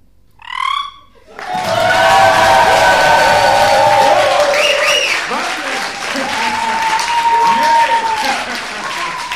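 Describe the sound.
Live audience cheering and applauding loudly, a dense, sustained roar of clapping and shouts that begins suddenly after a short opening sound and continues strongly to the end.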